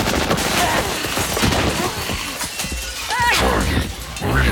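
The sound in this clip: Dense gunfire and shattering crashes in a sci-fi action drama set in Arcadia City in 2063, a loud, unbroken barrage of rattling shots and impacts, with voices partly heard among the noise.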